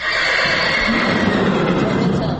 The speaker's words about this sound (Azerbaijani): Tövləyə girən kimi tanış səsə səs verir atlar.